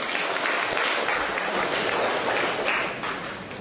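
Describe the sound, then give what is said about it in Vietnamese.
An audience gives a round of applause for a man invited up by the priest at a gathering, a dense steady patter of clapping that tapers off toward the end. “Rồi cho một tràng tay hoan hô người anh em này.”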